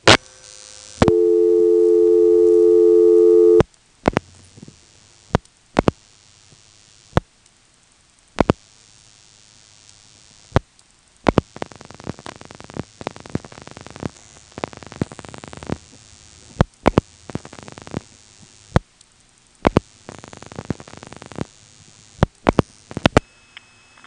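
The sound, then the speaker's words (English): Telephone call over a 2600-cycle carrier trunk to the 330 exchange: a steady tone sounds for a few seconds, then sharp clicks and irregular bursts of crackly static. “but because it's on a 2600 cycle type carrier trunk, the call has a very, very different sound. Here it is, a call to the 330 exchange, and you'll hear the same recording as you did before.”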